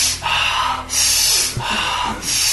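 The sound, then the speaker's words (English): Rapid, deep breathing from a cyclic hyperventilation exercise: loud, forceful, airy inhales and exhales alternate quickly and evenly, about two full breaths, with no talk. “30 breaths, about like this.”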